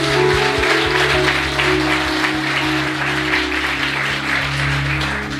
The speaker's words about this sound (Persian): برای خداوند یه دست دیگه بزنیم.